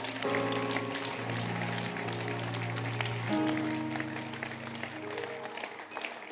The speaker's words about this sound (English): Can you clap your hands?